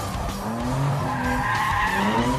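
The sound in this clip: Car tires skid in a continuous loud screech while the engine revs steadily beneath during tight drifting circles, with no talk over it.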